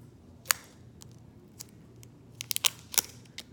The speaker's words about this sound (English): carefully, carefully remove the battery wrap. So you literally just wanna, you know, make a cut in the wrap and tear it off.